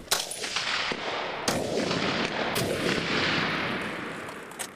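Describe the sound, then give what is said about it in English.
Gunfire from recruits training on a military firing range in Ukraine: a dense, continuous roar of shots with a few sharper cracks standing out, loud throughout and with no voices. “Thousands of recruits are taking to the firing range in preparation.”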